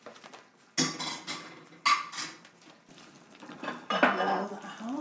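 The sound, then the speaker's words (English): A metal utensil clinks against a pan while liquid is taken out of a pan of rolled meat. Three sharp clinks stand out, with quieter scraping and handling between them, and the whole is fairly soft. “So, I will take some of the liquid out.”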